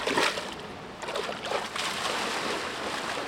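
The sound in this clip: Water splashes and sloshes as a man steps into a shallow stretch of river, with a few brief splashing bursts early on that give way to continuous trickling and rippling.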